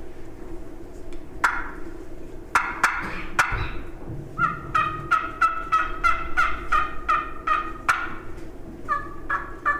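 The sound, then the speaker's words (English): Turkey gobbles and yelps imitated on a turkey call, as if from more than one bird: a few sharp loud calls, then a fast run of many yelping notes with short pauses, with no talking. “I'll try to sound like more than one turkey.”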